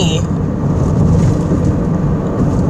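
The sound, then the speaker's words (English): Steady road rumble inside a moving car, a dense, constant low roar that stays even in loudness throughout. “I'm also driving, so I don't know how this is going to sound.”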